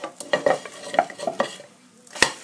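Food is stirred and flipped in a frying pan with a loose handle. It gives several scraping, clattering strokes over a steady sizzle, then one sharp clack near the end.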